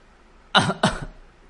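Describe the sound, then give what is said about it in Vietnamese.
Dry coughing from an injured man coughing up blood: two short, harsh bursts in quick succession, fairly loud and with no talk. “Theo tiếng ho khan, máu huyết của Mộ Dung Thiên không ngừng trào qua khóe miệng và nhỏ lên mặt Lăng Đế Tư”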